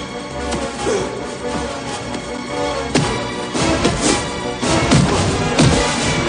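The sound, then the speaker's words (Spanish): Heavy punches land repeatedly on a body during a brutal fight in a pile of grain: a few sharp thuds and whacks hit through a loud, dense, rumbling background that never lets up. “Sam, que se coloca detrás de Mark, le golpea repetidas veces por todo el cuerpo”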